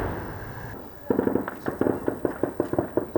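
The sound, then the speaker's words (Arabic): Explosions and rocket fire in a war zone: a rapid, irregular series of many sharp bangs and cracks, some in quick clusters, standing out over a low background rumble. “لا تسكت المدافع هنا ولا أصوات الصواريخ والتفجيرات”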